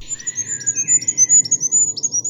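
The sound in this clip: A goldcrest sings a very high, thin song of rapid, repeated tinkling notes in a quick, even rhythm, heard clearly and alone.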